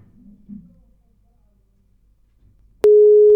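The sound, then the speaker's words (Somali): A telephone busy tone after a caller's line drops: after near silence, a loud, steady electronic tone cuts in abruptly near the end and holds. “waa ka xumaa dhegeystayaasina qadka taleefoonka ayaa ka go-ay.”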